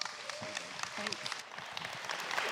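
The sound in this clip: Faint applause from a church audience welcoming a pastor to the stage: a soft, steady patter of clapping with voices talking over it.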